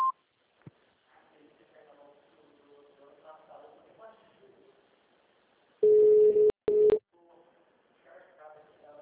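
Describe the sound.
An electronic tone from an automated phone menu on a municipal office line sounds as a steady, loud mid-pitched beep lasting about a second, broken by two brief clicks, with a quiet recorded voice prompt before and after it.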